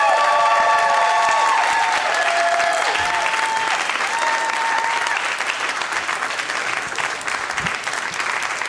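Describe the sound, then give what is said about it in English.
A comedy show audience claps and cheers loudly to welcome a comedian to the stage. The applause is sustained and even for about nine seconds, with whoops and cheers over it near the start. “Give it up for Rhea.”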